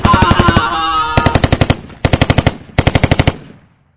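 Rapid machine gun fire from a hand-mounted gun, four loud bursts of tightly spaced shots separated by brief gaps, the final burst trailing off into quiet.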